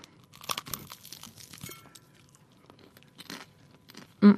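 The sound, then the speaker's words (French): Someone bites into and chews buttery food while tasting it, making faint crackly crunches in a few uneven bursts, followed by a short louder sound at the end. “Alors, je goûte. Goûtez. Allez, je goûte.”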